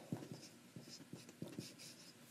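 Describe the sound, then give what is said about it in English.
Writing on a board makes a series of short, scratchy strokes in an irregular rhythm, faint and heard alone. “And I'll just go ahead and write it on the board.”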